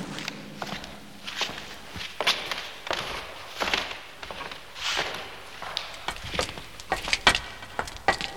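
Footsteps walking into a dark building, a steady series of firm heel steps at slightly uneven spacing, with a few heavier thuds among them.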